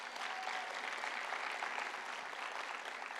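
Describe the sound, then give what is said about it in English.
A church audience applauds to welcome first-time visitors, a continuous, even wash of many hands clapping together, fairly soft throughout. “Hey, raise your hand if it's your first time here, if you'd be bold enough. Awesome. Come on, can we give it up and welcome these guys?”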